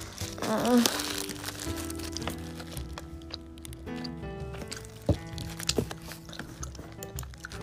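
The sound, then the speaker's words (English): Someone bites into a strawberry frosted donut and chews, with soft crinkling and a few sharp crunchy clicks scattered through the quiet chewing. “Let's try the donut, which, by the way, it's impossible for a strawberry frosted to be bad.”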